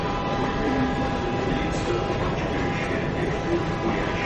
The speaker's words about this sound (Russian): Ты мирно посапываешь под мерный стук колес.